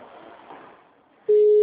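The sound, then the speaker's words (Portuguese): Telephone tone heard while a call is transferred through a hospital switchboard's phone menu: after a faint murmur, a steady, loud, mid-low tone begins and holds unbroken to the end. “Guarde, estamos transferindo a sua ligação.”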